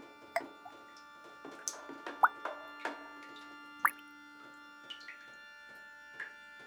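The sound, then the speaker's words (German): Water drips in single, irregular drops with clear pauses between them. The sharp, plopping taps vary slightly in loudness and rise over a quiet, faintly humming background. “Der Wassertropf, Tropf, Tropf, Tropf, Tropf, Tropf, Tropf, Tropf, Tropf, Tropf.”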